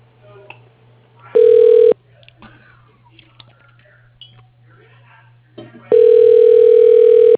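Ringing tone on a telephone line as a call is transferred to voicemail: two steady electronic ring bursts, the first brief and the second longer and cut off, over a low constant line hum with faint clicks between.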